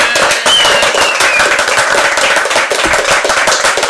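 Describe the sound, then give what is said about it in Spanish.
Audience applause plays as a sound effect: a loud, dense burst of many hands clapping. The crackle is steady and runs for the whole clip without voices. “En el auditorio. ¡Un aplauso del auditorio!”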